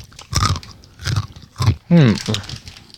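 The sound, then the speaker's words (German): Small, compact cheese snacks, several taken into the mouth at once, are chewed with soft, dry crunches in a loose rhythm. A brief voiced murmur comes in partway through. “Ich muss schon so 3 in den Mund nehmen. Aber dann kommt natürlich der krasse Käsegeschmack.”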